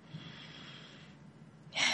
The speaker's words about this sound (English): So I want you to take a deep breath in and out and center back into your heart space.